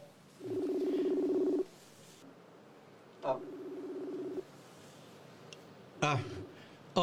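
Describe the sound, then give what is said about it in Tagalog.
Telephone line tones as a call is placed: faint, steady buzzing tones of even pitch, each lasting about a second, separated by pauses, with a few sharp clicks between them. “Tawagan ko siya guro.”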